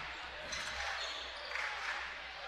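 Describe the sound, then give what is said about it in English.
Faint thuds of a basketball being dribbled down into the lane during a game, a few soft bounces heard under steady, noisy crowd sound. “going to dribble down into the lane”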